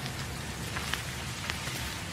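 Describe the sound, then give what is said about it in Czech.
Rain falls outside, a soft and steady hiss with faint scattered drop ticks, quiet and even throughout. “Vy jste venku, i když prší? Mně déšť nevadí.”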